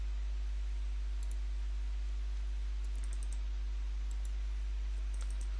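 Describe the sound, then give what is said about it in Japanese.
Faint computer mouse clicks as a details button is pressed: a few short, sharp clicks spread across the stretch over a low, steady hum, with no talking. “詳細をクリックします”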